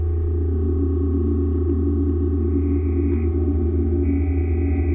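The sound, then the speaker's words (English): Synthesizer oscillators faded in on a mixing desk give a steady, sustained stack of pure electronic tones, a deep drone under brighter layers, with a faint higher tone entering partway through; no voices. “Different oscillators, and I have a mixing desk on the bottom so I can fade in the different sounds.”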